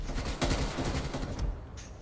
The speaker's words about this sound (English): That guy that shot me was just perfect on the dot.